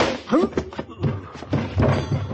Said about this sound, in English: You didn't have to pistol whip the doc.